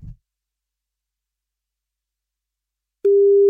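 A telephone line tone sounds on a radio call-in line: a single steady, low electronic tone that begins abruptly after about three seconds of near silence and runs to the end.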